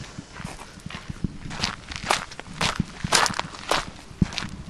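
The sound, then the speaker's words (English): Footsteps walking around the back of a drying shed toward a bank of silos: many steady, irregular steps with crisp impacts. “So we've walked around the back of the drying shed to a bank of silos.”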